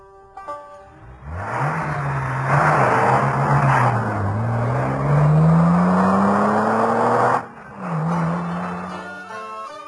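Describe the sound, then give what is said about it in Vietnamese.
A car drives away, its engine note loud and steady, climbing in pitch as it pulls off, then breaking briefly before rising again as the vehicle carries on. “Đến khi chiếc xe chở họ chạy khúc xa, cô đứng ngó theo cho tới chừng xe quẹo khuất rồi,”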